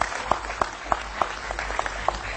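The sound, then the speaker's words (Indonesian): Audience applause at a large community gathering of thousands, a dense wash of clapping punctuated by regular sharp accents about three times a second, steady and fairly loud throughout. “Masyarakatnya luar biasa, kita kasih aplaus untuk Cak Nun bersama-sama.”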